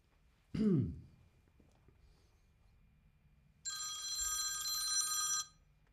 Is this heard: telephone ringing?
yes